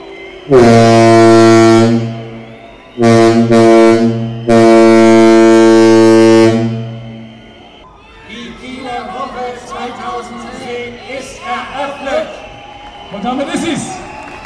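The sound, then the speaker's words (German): Ship's typhon horn blowing to cast off: three loud, deep, steady blasts, the last one longest, followed by quieter mixed sounds. “Und ich werde jetzt das Typhon in Gang setzen und Leinen losblasen.”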